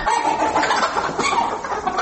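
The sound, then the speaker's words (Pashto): Chickens cluck on a small family poultry farm in Uruzgan province, where the flock is suffering from a viral disease. The birds make a dense, continuous chatter of mid-pitched clucks. “د سرمرغاب سیمې اوسېدونکی دي، تازه یې د بیکاري له وجې د کورنۍ چرګانو فارم جوړ کړي. خواړه دي چې په هر ساعت کې څارنه وکړي، ځکه یوه ویروسي ناروغي ورته راغلې.”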